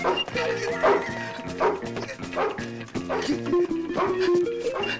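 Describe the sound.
A dog barks while chasing a man, in a quick, regular run of sharp, fairly loud barks and yips that carries on through the whole clip.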